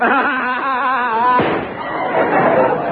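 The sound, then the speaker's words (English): A single gunshot cracks out sharply, abruptly cutting off a steady tonal sound and leaving a rough, noisy rumble trailing after it. “Ooh. He shot himself.”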